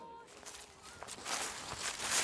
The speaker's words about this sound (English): I'm just finishing my stroll along the mile walk, heading to the field of play where I've left John.